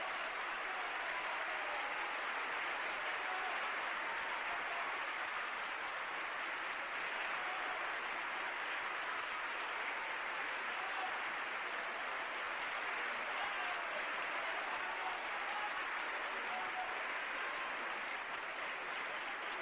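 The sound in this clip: An audience in Mexico gives long, unbroken applause, faint but dense and even from start to finish.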